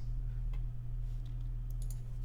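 Faint, sparse computer keyboard clicks as someone types a web search, a few soft taps scattered over a steady low hum.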